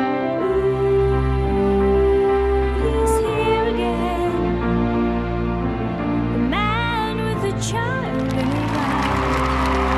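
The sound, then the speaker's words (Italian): Crowd cheering and applause at the close of a singer's first concert at the Arts Centre in Poole, Dorset, on 2 April 1979, a continuous loud roar of clapping and shouts blended with music. “Kate Bush sta ricevendo uno scroscio di applausi incontenibile. Il suo primo concerto ha appena avuto termine.”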